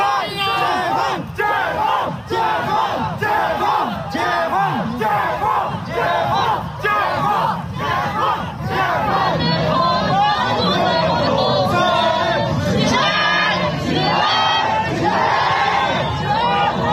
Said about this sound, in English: Let me play a little bit of the sound of the protesters in the streets.